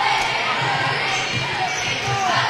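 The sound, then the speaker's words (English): A basketball dribbled with the right hand during a women's basketball game: soft, regular low bounces beneath a steady wash of crowd noise. “dribbling with the right hand”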